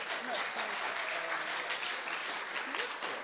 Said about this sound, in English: I suggest rather than yays or nay, just clap.